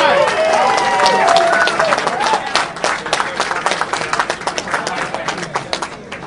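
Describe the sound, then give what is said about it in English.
Crowd applause and cheering at a political gathering for the next state chairman: loud massed clapping with shouting voices at first, gradually thinning into more scattered, separate claps toward the end. “First off, how about another round of applause for your next state chairman, Nick Langworthy.”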